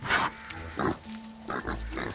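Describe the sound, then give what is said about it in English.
A pig roots through leaves with its snout, making a few short, breathy snuffling bursts with gaps between them, and a faint steady tone runs in the background. “As the pig continues to disturb the leaves with its snout”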